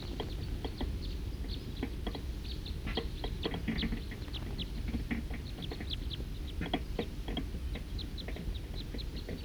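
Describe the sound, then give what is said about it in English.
A flock of birds calls in a dense, continuous chatter of many short chirps over a low, steady rumble. The sound is fairly faint throughout. “Another big flock is coming. There's a few of the birds.”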